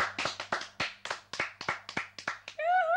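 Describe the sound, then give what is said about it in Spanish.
Hand clapping in applause for a singer at a performance: a run of about a dozen separate, crisp claps in a steady rhythm, followed by a sustained, wavering tonal sound at the end. “¡Lo aplaudimos!”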